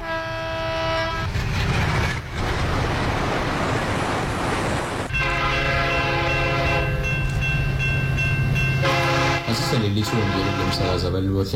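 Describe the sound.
A train rumbles past with heavy, low rolling noise while its horn sounds in long, loud blasts, a sustained multi-tone chord held for several seconds at a time.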